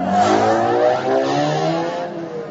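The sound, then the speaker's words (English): A Star Wars speeder bike starting up and driving off: a loud, smooth electronic engine hum with layered humming tones that shift and waver, heard alone. “Finally, Ben activated the bike and turned.”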